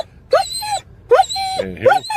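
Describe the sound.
A distressed dog whimpers and wails at a vet, giving three high, tonal whining cries in quick succession. Each cry slides upward with a strained, nasal quality over a low background murmur.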